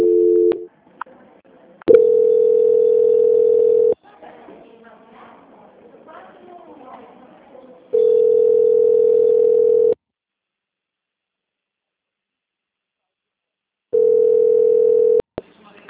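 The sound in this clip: A steady, low-pitched telephone line tone sounds during a call transfer, in several long blocks of about two seconds separated by silence, with a stretch of muffled voice-like sound between the first blocks.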